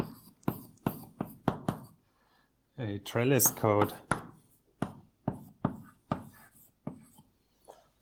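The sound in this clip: Chalk or pen strikes a board while a formula is written out, making many sharp, hard taps and scratchy strokes in uneven bursts, with a brief stretch of speech in the middle.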